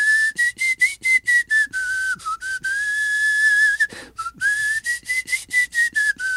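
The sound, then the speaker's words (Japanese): Whistling of a Western film theme melody, clear and fairly loud, with a run of short detached notes, a long held tone through the middle, then more quick notes, its pitch mostly steady with small dips. “僕ちょっと口笛苦手なんやけど”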